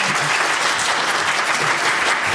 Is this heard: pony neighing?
no